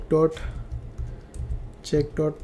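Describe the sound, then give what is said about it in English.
Computer keyboard typing during a web coding tutorial: soft, irregular key clicks run under intermittent speech. “Let's type that one, check.jpeg, inside of this.”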